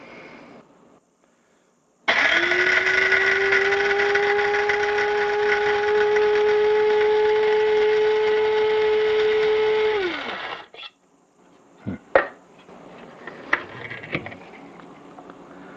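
Grinder running on a coarse grind, a loud, steady whirring motor whine that holds for about eight seconds, then winds down and stops, followed by a few sharp knocks.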